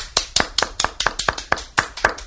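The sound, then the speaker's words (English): Hands clapping in a steady, even rhythm: many sharp, crisp claps at a quick regular pace, moderately loud and with no talk over them. “Here, clapping.”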